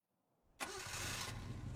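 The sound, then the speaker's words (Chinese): A car engine starts, with a faint crank before it catches and settles into a steady, loud running hum. “殷秀华没有说什么，冷着脸让司机开车 去圣天别院。”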